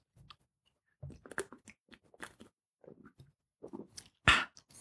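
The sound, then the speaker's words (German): A sip of beer: faint, scattered mouth and swallowing noises in irregular bursts, ending in one louder, sharper sound. “Verzeihung, ich brauche noch einen Schluck Bier.”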